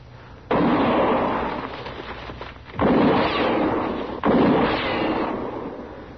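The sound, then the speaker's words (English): Gunshots are fired into brush: three loud, booming reports spaced a second or two apart, each trailing off in a long, rumbling decay. “when I fire, you'll roll away fast”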